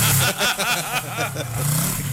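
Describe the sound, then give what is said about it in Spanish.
A motorcycle engine revs in loud repeated bursts, its harmonic whine wavering up and down in pitch across the short clip, with no one talking over it. “Eso es una moto, ¿sí?”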